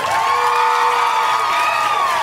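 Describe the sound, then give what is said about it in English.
Crowd cheering and whooping from an audience at a live comedy show: a steady, loud wash of high shouts and whoops that holds throughout, with little visible clapping. “Guys, can we give a round of applause to Eva”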